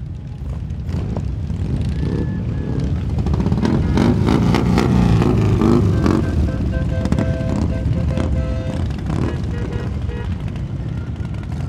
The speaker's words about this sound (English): That's the sound of hundreds and hundreds of motorcycles setting off on the 2023 Nevada County Toy Run.